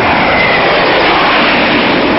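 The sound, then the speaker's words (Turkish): Fighter jets fly over Ankara at night with a loud, dense, unbroken roar that holds steady throughout. No voices are heard. “Kavganın tam ortasında bir gece Ankara semalarında jetler görülüverdi.”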